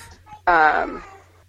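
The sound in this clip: A young girl wails in the background: a single loud, sudden cry that slides down in pitch and fades away, with a low steady hum underneath.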